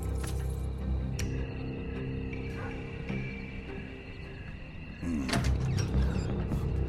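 A door being opened: a steady, busy low rumble shifts partway through into a louder, rougher stretch with scraping texture.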